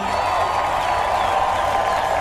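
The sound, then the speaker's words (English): Concert crowd noise: a large audience gives a dense, steady roar with an applause-like hiss. It holds at an even, fairly loud level from start to end without clear peaks. “With Crowd Noise, it will feel like you're with thousands of your best friends.”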